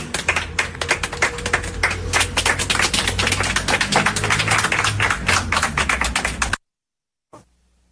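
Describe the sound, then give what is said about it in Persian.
A crowd claps at a memorial gathering for protest victims, with dense, loud, continuous applause for several seconds that stops abruptly and is followed by a brief faint sound. “به امید روز آزادی، آزادی دست بزنید به افتخار خودتون.”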